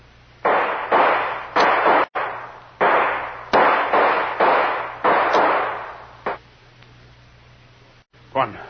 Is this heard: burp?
no

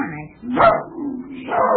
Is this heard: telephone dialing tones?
no

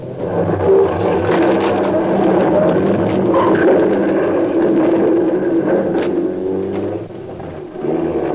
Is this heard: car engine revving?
yes

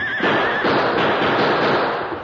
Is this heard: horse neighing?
yes

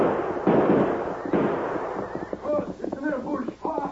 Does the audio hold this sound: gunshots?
yes

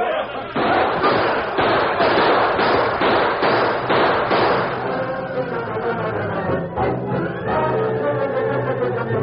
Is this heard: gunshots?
yes

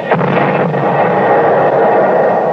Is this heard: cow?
no

